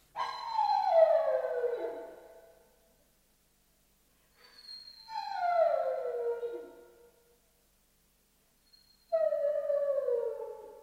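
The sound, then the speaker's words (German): A dog howls three times, each long mournful howl sliding downward in pitch, separated by silent gaps. “Warum nur heult der Hund? Wie schwül es ist. Aus irgendeinem Grunde heulen die Hunde.”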